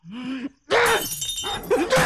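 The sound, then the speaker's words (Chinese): Household objects being smashed: a wailing voice, then a sudden loud crash followed by more than a second of dense breaking and clattering noise, with cries over it. “妈，妈，别砸了，家里快砸光了。”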